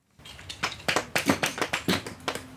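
A hammer splits small limestone plates one by one at a fossil dig in a quarry. Many sharp, crisp taps come in quick, slightly uneven succession, each a short bright crack.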